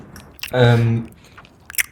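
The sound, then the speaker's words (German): Someone chewing while eating dates, with a few brief crunchy bites and moist mouth noises around a sustained voiced hum in the middle. “Ich gehe jetzt etwas essen. Du bist schon dran, so wie ich höre.”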